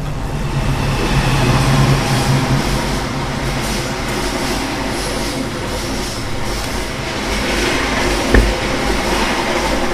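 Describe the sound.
Railway station ambience with trains moving through: a steady, heavy rumble and broad noise of rolling rail cars, swelling slightly at times, with one brief clank near the end and no speech.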